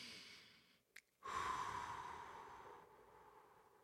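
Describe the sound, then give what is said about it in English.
A deep breath taken during a guided affirmation exercise: a brief faint tick, then a long, airy inhale of about two seconds that slowly fades. It is quiet and heard alone. “And take a breath.”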